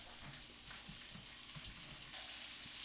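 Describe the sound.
Bacon sizzles and crackles as it fries in a pan, a steady hiss dotted with small pops that grows slightly louder near the end, with no talking.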